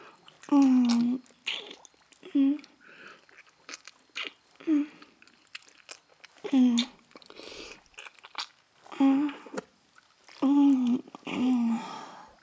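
Someone chews and eats food, with wet crunching and biting at intervals, broken up by short hummed vocal sounds between mouthfuls.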